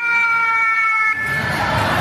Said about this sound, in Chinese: 应急警报一响，校园疏散演练即刻启动